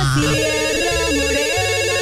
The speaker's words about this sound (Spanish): Se contesta las llamadas. Bueno, yo lo contesto.